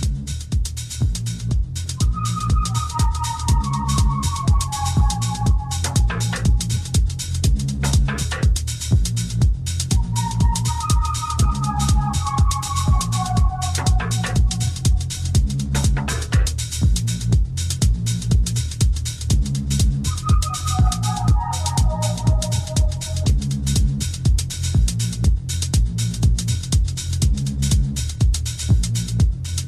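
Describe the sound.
A deep, throbbing Reese bass drives a Detroit techno track, a steady pulsing low end under the beat while short descending synth phrases recur at intervals.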